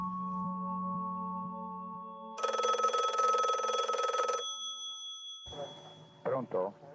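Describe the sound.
A telephone bell rings in one long, bright, trilling burst, preceded by a steady low humming tone and followed by a short stretch of other fainter sound.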